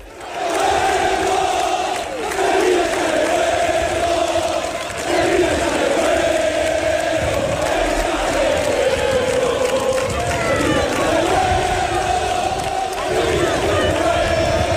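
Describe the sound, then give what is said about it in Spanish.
Sevilla supporters chant and sing to welcome their players the day before a match against Real Sociedad. A large crowd sustains a loud, continuous sung chant with long held tones and only brief dips. “Parece ambiente de partido, pero es ambiente para recibir a los jugadores antes de un partido, el día antes, porque el Sevilla juega mañana, ¿eh?”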